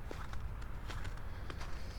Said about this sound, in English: All right, now let's walk into the main part of the lagoon here.